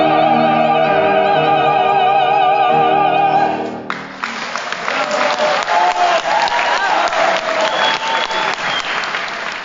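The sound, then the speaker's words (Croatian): Opera voices hold the final notes of a duet aria by Zajc at a Croatian opera evening in Sydney, then break off into a loud, sustained ovation of dense applause. “Vrhunac večeri, kako se moglo i očekivati, bila je zajednička izvedba Zajčeve arije u Boju Boj, koju je publika ispratila ovacijama.”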